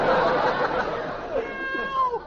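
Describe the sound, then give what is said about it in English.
Meowing of a black cat: drawn-out tonal cries that bend in pitch near the end, heard over a dense, busy background. “Well, I got to get rid of this black cat some way.”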